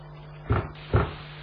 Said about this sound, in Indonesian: Terdengar suara ketukan pintu.